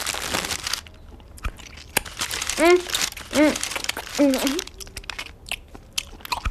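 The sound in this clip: Crisp crunching bites and chewing of cookies and liquorice snails, with bursts of crackly munching at the start and end. Short voiced sounds come between the bites.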